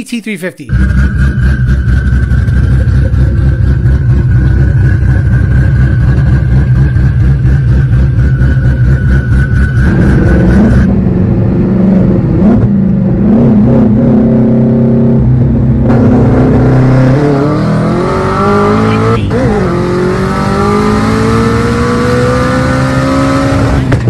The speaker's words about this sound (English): That is the sexiest sounding shit. Ghost cam dumped. Twin turbo